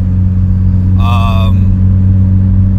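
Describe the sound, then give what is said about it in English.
A car drives down the turnpike with a steady, loud low engine drone and road hum. A brief voice breaks in midway. “I'm on my way to work, driving down the turnpike.”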